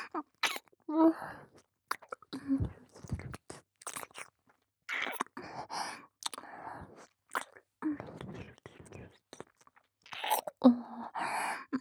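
Wet mouth sounds of ASMR ear licking: soft smacks, slurps and crunchy clicks come in irregular bursts with short pauses between them, fairly quiet throughout.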